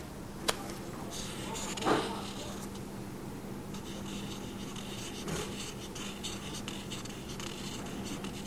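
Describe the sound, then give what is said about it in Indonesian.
Faint scratching of a pen drawing on paper. A soft continuous rub is broken by a few brief, slightly louder strokes. “Gambar sini sok Ultraman-nya.”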